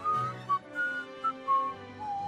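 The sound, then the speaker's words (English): A person whistles a short tune: a run of several clear, fairly high notes of shifting pitch with brief pauses between phrases. “You know you're getting those great whistling skills here on today's show.”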